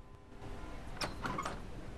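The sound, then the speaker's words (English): A room door closes as a man steps inside, heard as a couple of faint, soft clunks over low background hiss. “He steps into the room and the door closes.”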